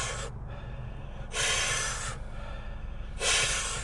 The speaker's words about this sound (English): you do 30 deep, deep breaths. So you go in very deep, and you release.